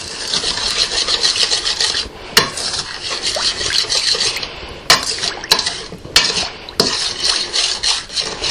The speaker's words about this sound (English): And then I need some flour. Now I'm mixing up this sauce.